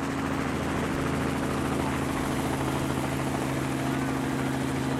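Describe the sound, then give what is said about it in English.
A helicopter flies off from an event with a prize desk and registration table. Its engine and rotors make a dense, steady, loud roar throughout. “And that's the helicopter flying off, heading off into the distance”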